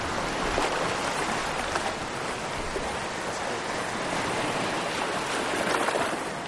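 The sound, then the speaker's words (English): Gentle waves washing onto a Lake Ontario beach, a continuous soft rush of water with mild surges and swells, heard alone without voices. “So the waves are just sort of gently, very gently, crashing against the beach right now, with the white foam is just sort of riding along.”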